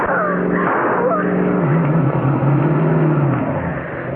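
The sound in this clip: Car engine roaring as the vehicle drives across lawns and fields, a loud, steady, rough rumble with revving surges held throughout without a break.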